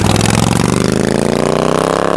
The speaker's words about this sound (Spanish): Y nos fuimos en moto.